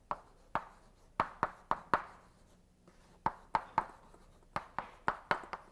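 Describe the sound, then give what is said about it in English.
A name is written up on a board during a mathematics lecture: many sharp taps and short scratching strokes come in quick, uneven groups with brief pauses. The sounds are faint and there is no talk. “Better write his name up. Fourier series.”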